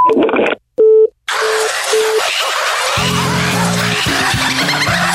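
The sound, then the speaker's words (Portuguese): Telephone line tones sound as a call is placed again: a few short electronic beeps and steady tones over a hissy line. Lower, layered tones then follow in uneven pulses. “Vamos ligar de novo aqui.”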